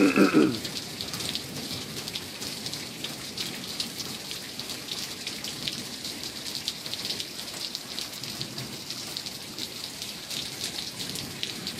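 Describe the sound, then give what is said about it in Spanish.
Heavy, cold rainstorm at night, a dense, steady hiss of pouring rain that holds at an even level throughout with no talk. “Hoy, 17 de mayo, 1:00 a.m, una tormenta muy fuerte y fría.”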